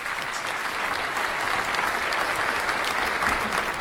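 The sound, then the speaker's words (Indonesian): A studio audience claps at a quiz show after an answer is scored. The applause is even and sustained for about four seconds, with no one speaking over it. “Ya, tepuk tangan Bapak Ibu.”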